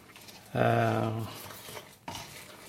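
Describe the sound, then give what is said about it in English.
Water is stirred into whole rye flour to scald it, with a utensil scraping the bowl in a short squeaky stroke and a brief second scrape a moment later. “But you pour the water onto the flour, and you stir it around a bit so the flour is soaked.”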